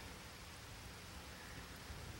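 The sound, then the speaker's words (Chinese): Light rain falling outside a window: a soft, steady hiss of continuous patter with no breaks, fairly faint throughout. “听着窗外淅淅沥沥的雨声，就好像思念在敲打着心房。”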